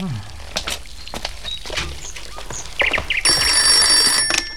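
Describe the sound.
A telephone bell rings in one sustained, bright burst near the end, following a stretch of scattered clicks and background voices.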